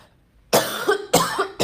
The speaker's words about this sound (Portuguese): Ai, desculpa, eu tô com uma gripe e uma tosse.